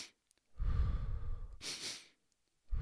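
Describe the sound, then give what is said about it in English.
Audible breathing in a calming pattern of quick inhales and a long exhale, with soft, breathy airflow in a few distinct breaths and no talk. “what he naturally does is breathe like that.”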